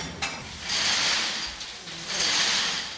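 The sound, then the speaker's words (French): A mussel-cleaning machine turns with running water, churning the shellfish. Two broad, hissing surges of sloshing water and rattling shells rise and ebb over a low mechanical rumble. “Donc ça c'est la machine pour nettoyer les moules. Alors il y en a de l'eau qui coule et en même temps il tourne avec les moules.”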